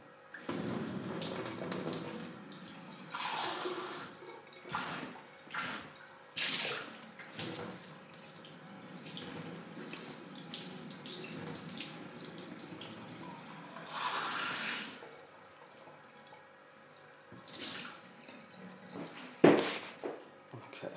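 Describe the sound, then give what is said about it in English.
Water runs from a tap in several uneven bursts while a cup is rinsed and washed by hand, mostly quiet splashing and hissing, with one sharp clunk near the end. “let's grab a cup. And it's disgusting because people in this place don't bloody wash things and it's ridiculous. So I'm going to wash it myself.”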